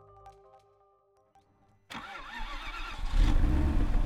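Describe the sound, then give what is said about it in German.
A Range Rover Vogue engine starts abruptly after near silence, firing up into a low rumbling idle that grows louder and fuller toward the end. “Er fährt einen schneeweißen Range Rover Vogue”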